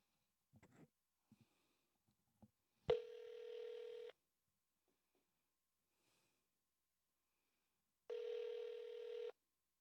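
Ringback tone of a telephone call: two steady, buzzy, mid-pitched rings, each lasting about a second, separated by a long silent gap, with a few faint clicks and breaths before the first ring.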